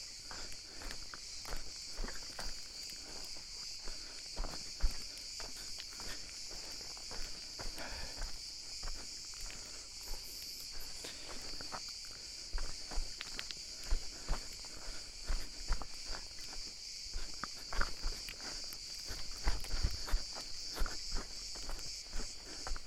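Many soft, irregular crunching footsteps through powder snow in a forest, a steady stream of muffled crunches over a constant thin hiss.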